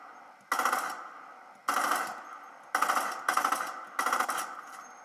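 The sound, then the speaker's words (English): Gunfire from a new compact SMG in a video game: several separate short bursts of rapid, bright, metallic shots, each starting sharply and rattling briefly before cutting off, with gaps between bursts. “Guys, we got the new compact SMG. Pleasant Park. Okay guys, I'm going to shoot it once.”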